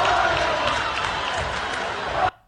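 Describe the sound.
A crowd chants and roars in a loud, dense, unbroken wash of voices that cuts off abruptly near the end.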